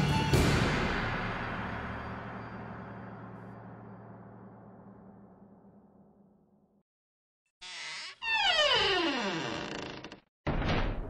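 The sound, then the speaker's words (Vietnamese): A creaking door hinge in a horror audio drama, heard as a drawn-out squeal with falling pitch that follows a heavy thud, which rings away slowly before a brief silence. “Tiếng bản lề cửa kẽo kẹt là âm thanh đầu tiên khi cô tỉnh táo lại.”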